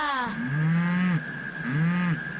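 A cow on a farm moos twice: two loud, low, drawn-out calls, the first longer than the second, with no talking over them.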